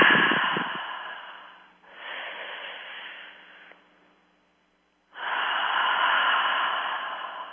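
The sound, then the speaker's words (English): Slow, deep breaths drawn through the mouth during a guided belly-breathing exercise: three long, airy rushes of breath at moderate volume, with a silent pause before the third. “And then you just want to take a slow, deep breath through the mouth and feeling the belly expand.”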